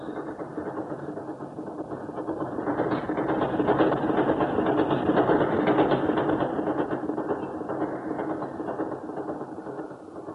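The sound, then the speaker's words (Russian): A train from Moscow passes with a broad, steady mechanical roar that swells toward the middle and eases off again toward the end. No voices are heard. “Вот он, поезд из Москвы.”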